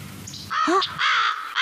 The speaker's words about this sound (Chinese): 这是什么鸟？怎么那么大？这是乌鸦